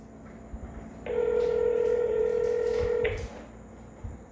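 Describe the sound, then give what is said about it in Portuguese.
A steady electronic telephone tone lasting about two seconds while a call is placed, rising out of faint background noise and cutting off cleanly, with no voices. “Vou ligar pra ela aqui agora”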